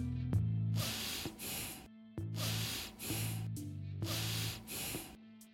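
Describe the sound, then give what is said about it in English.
Quick, shallow breathing of the kind typical under stress. Rapid, hissing in-and-out breaths come in a steady, repeating rhythm, many in a row, fairly loud and with no talk over them. “It means the person does not breathe in or breathe out deep enough. His or her breath sounds something like this.”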